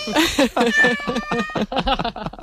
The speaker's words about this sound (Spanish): Están saludando los gatos